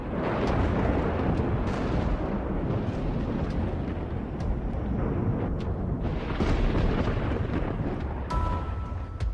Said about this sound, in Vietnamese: đúng lúc có một tia sét rạch ngang trời, vang lên tiếng nổ đinh tai nhức óc.